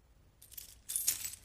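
Keys being handed over: quiet metallic jingling and a few light clinks, growing slightly louder toward the end, with no voices.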